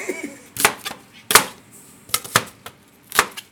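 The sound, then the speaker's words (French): Knife strikes on a board as small white onions, about golf-ball size, are coarsely chopped in a kitchen: several sharp, uneven thuds come in loose clusters with short pauses between them. “Donc là, je coupe grossièrement.”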